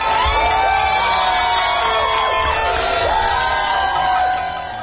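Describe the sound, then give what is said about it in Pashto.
Crowd in America cheering the announcement of Biden's election victory: loud, continuous cheering full of whoops and shouts, easing slightly at the end. “اخوا په امریکا کې د اعلان ته خلکو په خوښیو هرکلی کړی.”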